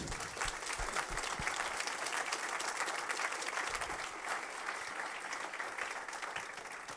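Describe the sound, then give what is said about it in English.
A church audience applauds to welcome a speaker, clapping densely and steadily at an even level for the full length, with no clear pauses. “And why don't you put your hands together and welcome Naomi.”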